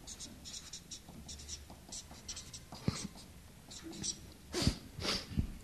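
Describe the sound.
Scratchy strokes of writing on a board come in short rhythmic bursts, with a few sharper scrapes and taps toward the end.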